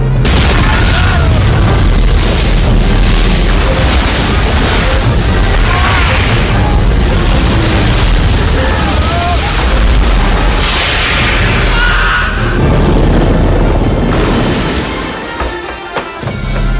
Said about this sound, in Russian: Отколовшиеся куски льда падают и разбиваются о палубу.